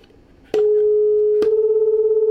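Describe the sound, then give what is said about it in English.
Two tones played together producing a beat frequency, one altered in pitch by a damper. A steady pure hum begins, then a second tone joins and the combined sound swells and fades in a regular, even pulsing waver. “Do you hear that faint back and forth? That's called a beat frequency.”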